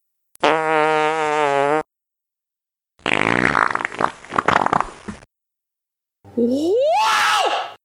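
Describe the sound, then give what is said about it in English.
Three separate farts sound one after another with silence between: first a steady buzzing tone, then a longer ragged, sputtering blast, and last a shorter one ending in a squeaky tone that rises in pitch. “Here are three farts. Two of them are normal, and one of them is a serious medical condition.”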